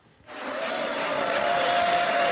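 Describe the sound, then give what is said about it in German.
Delegates and onlookers applaud the British prime minister in the entrance hall of a Tory party conference centre in Manchester; dense clapping swells up after a short quiet opening and stays full and steady. “Boris Johnson bahnt sich seinen Weg durch die Eingangshalle des Konferenzzentrums in Manchester. Spontan applaudieren und jubeln ihm Delegierte und Zuschauer zu.”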